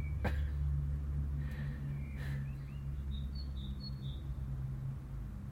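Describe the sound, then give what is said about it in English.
A robin gives faint, high chirps by a suet feeder: a short run of brief tweets in the second half, over a steady low hum and soft background hiss. “It's wee Robin come down to the suit feeder.”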